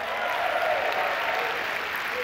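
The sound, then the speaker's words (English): Applause from an audience at a live event, a steady, dense wash of clapping that stays even in loudness throughout the short stretch. “Let's give all the Gene Wise a round of applause.”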